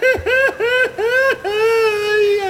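A man cries loudly in harmonic, sobbing wails. A few short, choppy sobs come first, then one longer sustained wail.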